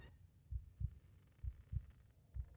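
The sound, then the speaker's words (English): A heartbeat sound effect: low, muffled thumps in lub-dub pairs that repeat at a steady, unhurried pace. They sound faint and alone, with no voices over them. “Yeah, there's the heartbeat.”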